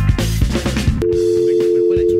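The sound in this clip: A steady telephone line tone follows a brief burst of voice and noise as a call is placed over Skype, holding a constant low pitch to the end.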